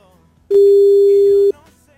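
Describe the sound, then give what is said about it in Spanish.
A single steady ringback tone on a phone line while calling someone: one loud, even, mid-pitched tone lasting about a second, set against faint background noise. “Ahí va. Vamos a ver si contesta Carmen, brother.”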